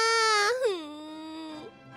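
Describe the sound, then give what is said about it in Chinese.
A girl crying and sobbing at a loom: one long, high wailing cry that bends upward, then sinks into a lower, drawn-out moan. It is loud and heard alone. “女孩子哭哭啼啼地坐在织布机前面”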